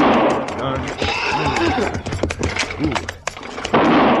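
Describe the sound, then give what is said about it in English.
Rifle gunfire from a wagon chased by outlaws, with spooked horses fighting the reins: loud sharp shots crack through a dense, noisy commotion, mixed with horse sounds and voices. “Stop firing that rifle.”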